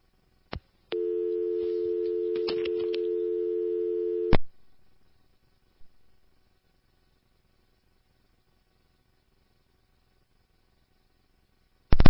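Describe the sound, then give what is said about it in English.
A telephone line tone after a disconnected call: a steady, low, unbroken tone runs for about three and a half seconds between sharp clicks. Near-silence follows, with a faint tick in the middle and another click burst at the very end. “Your call is disconnected. You may dial the number again.”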